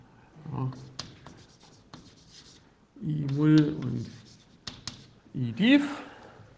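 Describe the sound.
Writing on a board during a lecture as a C in square brackets is added: short scratchy strokes and taps come in bursts, with a person speaking between and over them.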